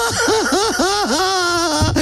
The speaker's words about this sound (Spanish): Ay, es que está llorando este chamaco.